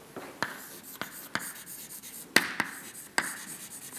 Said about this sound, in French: Donc, si j'écris l'équation pour l'activateur,